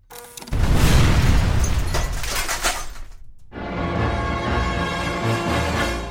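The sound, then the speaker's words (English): An explosion goes off near a pumping station, a loud blast with crashing, shattering debris that lasts a few seconds, then a short lull before a sustained lower rumble. “The explosion triggered by Subu in the vicinity of the pumping station rocked the walls and the foundation of the building.”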